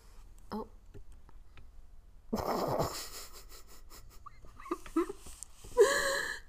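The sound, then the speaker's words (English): A pet cat snores while sleeping: faint, breathy, rasping wheezes come in a few short bursts over a quiet background. “If you hear snoring in the background, Meatball is right there sleeping.”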